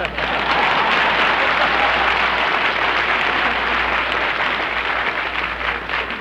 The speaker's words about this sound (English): Applause.